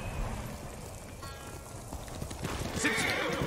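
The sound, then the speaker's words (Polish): A horse in a video game whinnies and its hooves clop in a steady run of quiet beats throughout, with the rising neigh standing out near the end; the sounds are faint overall. “Dobra, koniku mój kochany. No ty, coś tak gobiną, wsiadaj.”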